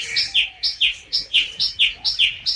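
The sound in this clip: A bird sings a rapid, rhythmic run of high, bright chirps. Each phrase is a quick two-part note, and it repeats many times at an even pace with no other sound behind it.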